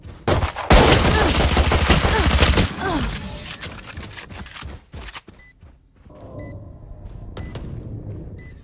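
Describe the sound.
Rapid automatic gunfire in a video game rattles loudly for about two seconds, followed by scattered quieter shots and thuds that fade into a softer stretch.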